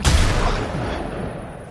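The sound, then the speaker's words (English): Gunshot: a single loud, sharp blast at the start that trails off into a long, rumbling, noisy decay. “Someone's shooting!”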